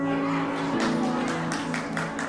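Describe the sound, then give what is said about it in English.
Sparse clapping from a church audience, a few scattered, uneven hand claps that begin partway through and stay thin rather than building into full applause. “I thought there'd be a lot more claps for that.”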